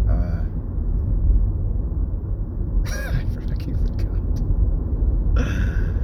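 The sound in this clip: Steady low road rumble of a car being driven, heard from inside the cabin. It is continuous and fairly loud throughout, with brief hissy bursts rising above it twice.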